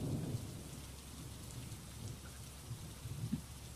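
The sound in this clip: Steady rain falls in a forest, a dense, continuous hiss with low rumbling underneath, like thunder, swelling briefly near the end; no voices.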